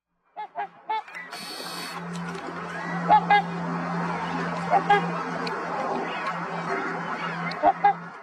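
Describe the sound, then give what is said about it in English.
Whooper swans call at Lake Commando in Cochrane, giving loud, brassy honks, several in close pairs, with quieter stretches between the calls. “Two white whooper swans have returned to Lake Commando, marking the beginning of the summer season.”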